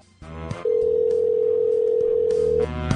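A single steady electronic ringback tone plays on a phone line while a disconnected call is redialed. The moderately loud tone holds about two seconds, with faint other sound before and after.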